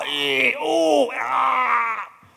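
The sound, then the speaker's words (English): A person imitates groaning and sighing, the noises of an aching body the day after hard physical work in the yard: a few drawn-out voiced moans with wavering pitch, fairly loud, ending in a soft breathy fade. “groaning and sighing.”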